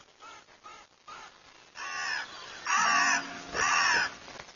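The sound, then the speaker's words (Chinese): Harsh, loud cawing of a carrion crow: a few fainter calls at first, then three long, loud, rasping caws with short gaps between them. “一边是声如洪钟的小嘴乌鸦”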